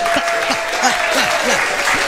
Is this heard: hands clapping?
yes